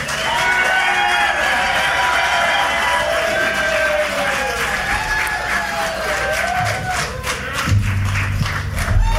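An audience cheers and makes noise for a band: a loud, sustained crowd roar with whoops, shouted cries and some clapping, lasting the whole clip.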